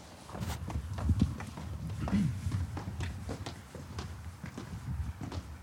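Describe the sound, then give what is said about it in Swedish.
Footsteps walking down an indoor staircase: a long series of quiet, evenly paced steps, each a soft knock, continuing throughout. “Ska vi prova trappa ner?”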